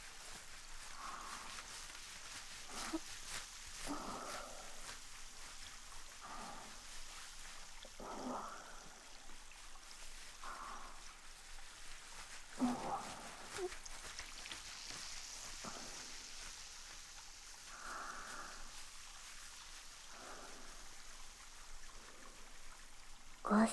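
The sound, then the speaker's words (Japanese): Fingers gently rubbing a scalp during a hair wash produce a soft, wet, crackling scrub, with many faint strokes repeating at an unhurried pace, quiet and continuous throughout. “地肌を指で優しくこするように”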